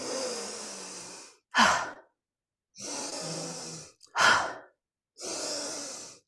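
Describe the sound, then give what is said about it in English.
Deep breathing from a breathing exercise: three long, airy breaths alternate with two shorter, sharper ones, each separated by a moment of silence. “what you could do is do the opposite, breathing in for 8 seconds and breathing out.”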